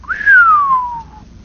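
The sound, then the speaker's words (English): A human voice whistles in astonishment, imitating a hiss: a single clear, loud whistle that climbs briefly, then slides steadily downward in pitch for about a second and stops. “the idea of hiss there is, you know, like we're almost like a whistle sound where maybe you look at something and you go,”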